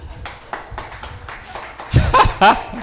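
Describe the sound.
Evenly spaced hand claps during a talk on health and spirituality, a series of sharp single claps at a steady slow rhythm, followed by louder voices.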